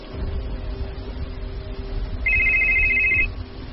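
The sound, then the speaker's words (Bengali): Mobile phone ringtone of an incoming call, a single bright electronic trill about a second long over a low, steady background hum, with no voices. “বেরোতে যাওয়ার ঠিক আগের মুহূর্তে লুলুর phone পেলাম।”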